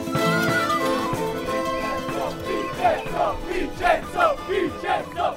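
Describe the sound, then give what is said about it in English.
Cycling fans chanting at the start of a Giro d'Italia stage in Cefalù, a crowd of voices singing steadily at first, then breaking into loud, rhythmic shouted bursts in the second half. “That was the sound of some Vincenzo Nibali fans in Cefalù at the start of stage four.”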